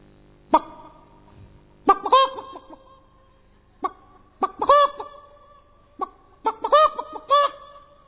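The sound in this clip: A human voice imitates a hen reacting to a cat, making many sharp, throaty clucks in irregular bursts. Some bursts run into quick, rising, squawk-like calls, loud and with no other sound behind them.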